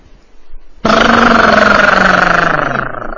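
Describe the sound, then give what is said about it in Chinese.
An old car engine being push-started catches suddenly after near silence, bursting into a loud, steady running rumble with belching heavy smoke, then easing slightly in volume. “不错， 这车发动起来，回头一看，嚯，浓烟滚滚呐！”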